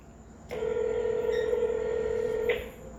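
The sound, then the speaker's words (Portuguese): A single steady electronic telephone tone sounds for about two seconds during a call, plain and unbroken, then stops. “Mas eu vou tentar ligar pra Linda de novo. Pra ver se ela entra aqui na, na call. Deixa eu ver aqui. Qual o número dela mesmo?”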